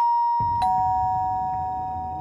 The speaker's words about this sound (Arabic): في الوقت ده بدأ جرس الباب يرن.